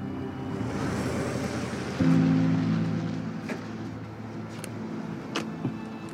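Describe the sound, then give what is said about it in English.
A car pulls off into the night with a steady low engine hum and road rumble. The sound swells briefly, then slowly eases, with a few faint clicks over it. “The car pulls off into the night.”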